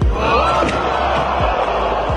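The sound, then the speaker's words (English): A crowd at the DARPA Robotics Challenge groans in sympathy as a robot falls, a loud, sustained wash of many voices rising together and holding across the moment. “everybody goes, oh, and they sympathize with it”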